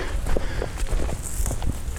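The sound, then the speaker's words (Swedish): Footsteps fall on a dirt vehicle track in a newly expanded nature reserve, a few soft, uneven steps of difficult walking under constant rustling noise. “Reservatet har nyligen utökats och vi går på en körväg och det är inte så himla lätt att gå faktiskt.”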